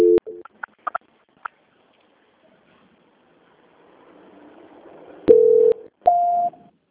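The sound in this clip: Telephone tones sound while a phone call is transferred. A few short clicks and beeps come first, then a faint hiss, then two steady electronic tones, the second pitched higher than the first.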